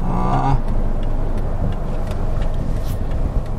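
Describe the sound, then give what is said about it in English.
Road traffic with cars going round, a steady, unbroken rumble of passing engines and tyre noise that holds an even loudness throughout. “I'm just watching here as the traffic goes round.”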